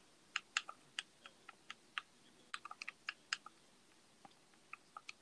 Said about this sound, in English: Man, I guess I'm gonna have to type in the whole word.